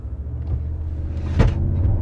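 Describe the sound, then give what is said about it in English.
A car accelerating hard uphill with three people aboard, heard as a steady low engine and road rumble with a brief thump partway through. “Yeah, so we'll do three people. We're going uphill a little bit. But let's go see what this thing accelerates”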